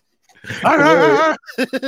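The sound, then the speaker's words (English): A man imitates a pit bull with a wavering, whining growl held for about a second, followed by a few short, clipped yelps. “I played a pit bull today.”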